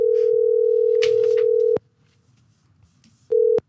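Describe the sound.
Telephone ringing tone on an outgoing call to a café-pastry shop in Italy: a steady, mid-pitched tone holds for nearly two seconds, stops for a pause, then a second, shorter tone begins.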